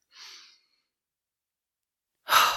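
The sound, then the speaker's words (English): A deep breath is drawn in as a short, soft, airy inhale. About two seconds of silence follow, then a louder breathy rush cuts in at the very end. “when is the last time you just, like, took a full breath? Like, breathe in.”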